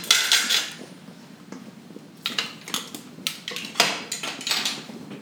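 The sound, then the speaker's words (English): Utensils scrape and clink against a bowl as mixture is scraped out in a cookery school class, with many irregular scratches and taps, loud and uneven. “Okay, so all that's going to go in there. Scrape it all out.”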